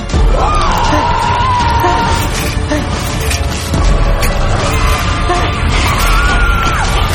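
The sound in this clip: A man screams in terror at night in a basement parking garage where he works as a guard. Loud, wavering yells rise over a dense, chaotic clamour that stays loud throughout.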